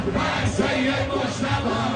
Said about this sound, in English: As the crowd continues to grow, chants for Iran's new supreme leader Sayyid Mujtaba Khamenei begin to ring out. Mourners shout, "We are at your service, Sayyid Mujtaba Khamenei," and hail him as the commander of us all.